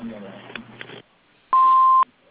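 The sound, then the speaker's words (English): An answering machine beep: one loud, steady electronic tone lasting about half a second, following a stretch of quieter, muffled noise. “For all of your inquiries, please leave a message after the beep, and we'll get back to you as soon as we can.”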